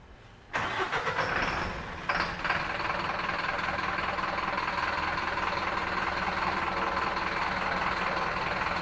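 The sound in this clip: A vegetable delivery truck's engine starts abruptly on a street after unloading, then settles into a steady, loud idling drone that runs without a break to the end.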